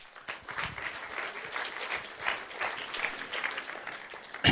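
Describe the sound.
Audience applause welcomes a speaker to the stage at a Resurgence Edmonton evening gathering: dense, steady clapping from a crowd that carries on throughout, with a brief louder burst at the very end.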